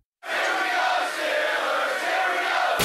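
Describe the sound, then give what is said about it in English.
A crowd of Steelers fans cheers in a loud, sustained roar that bursts in suddenly and holds steady, full and unbroken, until it cuts off at the end. “This is Black and Gold Fan Heaven. Listen to this crowd.”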